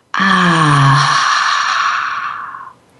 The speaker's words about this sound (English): as we take a deep breath in and relax out with the sound.